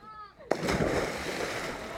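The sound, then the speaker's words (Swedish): A single loud splash as something hits water in a test, with a sharp onset followed by about a second and a half of sustained spraying, sloshing noise. “Ja, bra plask där!”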